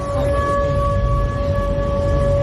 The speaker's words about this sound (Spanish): este es el sonido de las sirenas antiaéreas esta noche en Krasnodar